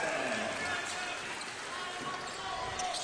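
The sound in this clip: A basketball bounces on the court during a high school game between Richland and the Blue Devils, a quick run of dribbles heard under a commentator's steady voice.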